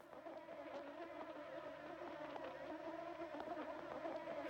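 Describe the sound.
Flies buzzing, a recorded insect sound played from a music album: a continuous, quiet, droning whine that holds steady throughout, with no voices.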